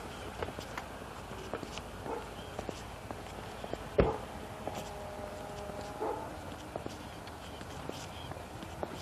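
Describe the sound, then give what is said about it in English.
Footsteps walk along a park path on a cool, almost frosty morning, many soft, irregular steps and small scuffs under a man's talking. “So here we are, walking along the park.”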